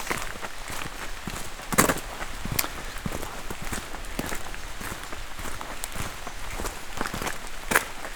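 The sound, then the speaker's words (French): Footsteps of people walking outdoors on a live walk, a soft, steady run of crunching steps with a few sharper knocks, fairly faint and alone. “on poursuit notre marche, parce que nous sommes en direct.”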